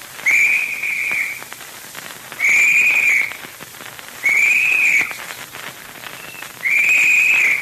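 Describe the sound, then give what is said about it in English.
Shrill whistle blasts sound as a search party's signal: four sustained, steady high blasts, evenly spaced and loud, with gaps of quiet between them. “That's the boys signaling. All right, Dick. Keep moving ahead. How'll we know if anybody finds something? Well, he'll blow the usual signal. 3 short, quick blasts on the whistle.”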